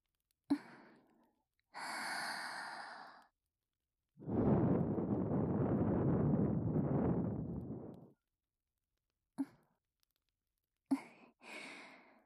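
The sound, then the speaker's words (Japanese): Gentle breath blowing as a finishing touch. One long, steady, airy blow sits in the middle, with shorter soft breaths and faint mouth clicks before and after it. “それでは仕上げに吹いていきますね。”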